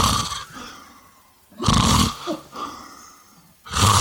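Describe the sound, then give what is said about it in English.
A person imitates an aunt's snoring with a voice: rough, rasping snorts in a few loud bursts, separated by quieter breathy gaps. “It was my aunt snoring. So she was going like,”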